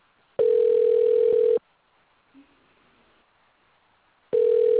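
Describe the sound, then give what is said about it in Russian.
Telephone ringback tone heard while placing a call to a cafe: two long, steady mid-pitched tones about four seconds apart, with near silence between them. “Продолжаем дозваниваться. Оставайтесь на линии.”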